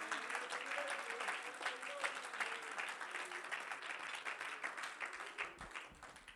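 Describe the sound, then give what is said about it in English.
Church audience clapping hands to the Lord during a sermon: a quiet, continuous patter of many hands that runs steadily throughout, with voices faintly over it. “If you believe that, would you clap your hands to the Lord?”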